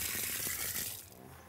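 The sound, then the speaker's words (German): A garden hose sends out a strong, steady rush of water that thins after about a second, leaving a softer hiss. The hose is being shut off at a zoo. “So, ich drehe gerade mal den Schlauch aus und versuche das dann nochmal.”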